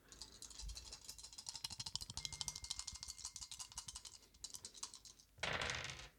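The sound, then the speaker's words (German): Three dice rolled during a shark-themed board game: a quiet, rapid run of many small clattering clicks, with a denser, louder rattling burst near the end. “willst du für Jörn würfeln? Ja, drei Würfel.”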